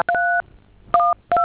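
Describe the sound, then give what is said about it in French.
Telephone keypad tones dialing a code on a phone: three loud two-note beeps, each held briefly, with short quiet gaps between them and no voices. “je vais vous communiquer un code, monsieur. Vous composez ça sur votre téléphone, d'accord?”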